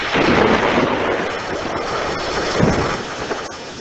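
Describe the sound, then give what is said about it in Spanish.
A storm at sea with icy wind sounds as a dense, loud roar of wind and rain, with low thunder rumbling underneath. The noise stays steady throughout, with a few heavier surges. “la brisa helada que ha estado soplando se transforma en tormenta”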